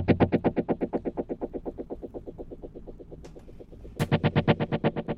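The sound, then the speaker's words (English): Multi-head tape echo with feedback, all four heads on, turns each hit into a fast, distorted stream of evenly spaced repeats that slowly thin out. A brief noise burst follows, then a fresh loud hit restarts the dense pulsing. “Every time we hit something, whichever one's feeding back, you're going to hear da da da da because all four heads are on.”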